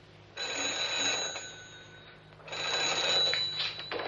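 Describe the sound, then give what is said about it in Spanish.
A telephone rings twice, each ring a sustained bell-like burst of about a second, with a pause between them. The ringing is fairly faint and has no talk over it. “coge el teléfono”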